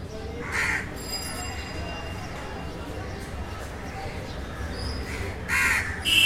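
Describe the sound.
Crows caw in short harsh calls over a steady low background rumble: one call near the start and a cluster of louder caws toward the end.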